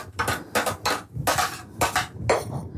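Clattering dishes and kitchen utensils being cleared away after fennel was grated, a series of sharp clinks and knocks in uneven bursts with short pauses between them.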